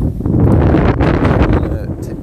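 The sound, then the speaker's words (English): Wind blowing across an outdoor microphone: a loud, steady, rumbling roar of buffeting throughout. “Sorry for the wind. I don't know if you can hear it.”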